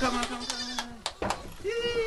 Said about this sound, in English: Baby goats are called kids. Male baby goats are called bucklings.